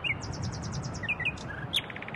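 A nightingale singing: a rapid run of high, repeated chirps followed by scattered sharper whistled notes, fairly faint and with no voices.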